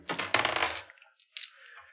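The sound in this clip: Two red dice rolling on a table during a tabletop game attack: a brief clattering rattle, then a short sharp click as they come to rest, all fairly quiet.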